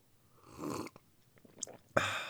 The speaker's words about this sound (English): I'm drinking my morning cup of coffee. Oh yes, delicious.